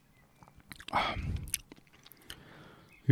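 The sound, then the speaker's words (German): A quiet sip of Coca-Cola Energy drink gives a soft slurping, swallowing sound of about half a second with faint mouth noises around it. A short spoken word follows at the end. “Ja, wie schmeckt denn nun diese Coca-Cola Energy. Ich nehme da direkt nochmal so ein Schlückchen.”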